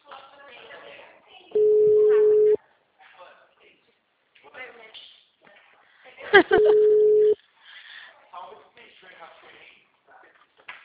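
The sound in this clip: A telephone busy signal follows manual dialing: two steady mid-pitched tones of about a second each, separated by several seconds. People talk quietly before, between and after the tones.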